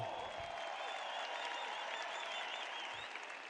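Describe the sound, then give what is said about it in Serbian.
Audience applause fills a packed arena at a birthday celebration for an evening show of tavern music, a dense, steady wash of clapping that holds at an even level from start to finish, with no talk over it. “Ja ću vas zamoliti jedan veliki, veliki aplauz. Slavimo rođendan zajedno!”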